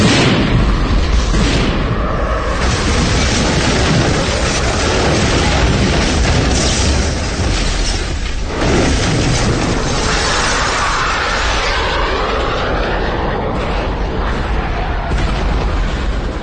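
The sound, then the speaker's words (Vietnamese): Two jet aircraft roaring over a valley while bombs explode below, heard as a loud, dense, continuous rumble and roar that fills the whole stretch without any quiet gaps. “Phải tới lúc hai chiếc phản lực tru thét âm ỉ trên bầu trời, trút xuống lòng thung lũng những tiếng nổ ầm ầm trung chuyển đất đai, những cuộn khói đen kịt.”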